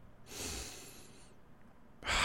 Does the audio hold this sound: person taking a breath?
yes

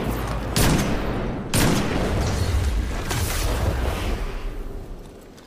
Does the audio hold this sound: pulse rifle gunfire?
yes

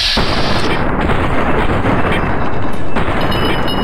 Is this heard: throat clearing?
no

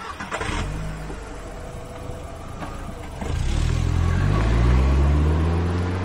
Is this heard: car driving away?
yes

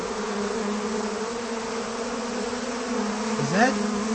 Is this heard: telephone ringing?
no

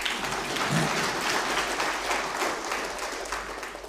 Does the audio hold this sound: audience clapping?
yes

